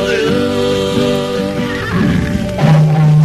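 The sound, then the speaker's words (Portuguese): A horse neighs loudly on a Pantanal ranch, a long wavering whinny that ends in a lower, rougher tone. “No meio do pantaneiro, meu cavalo relinchou.”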